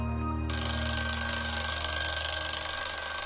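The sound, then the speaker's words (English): An alarm clock rings abruptly after a brief low hum, then holds a shrill, steady electronic tone with no pause until the end. “Robin shuts off the alarm clock and falls back to her pillow.”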